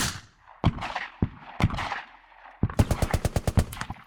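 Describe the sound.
Gunfire: a few sharp, separate shots ring out, then a rapid automatic burst of many loud cracks follows in quick, even succession.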